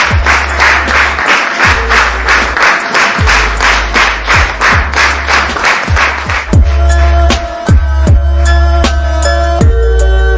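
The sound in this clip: A theatre audience claps loudly in steady, rhythmic unison. Near the end, sustained musical tones join in while the clapping carries on.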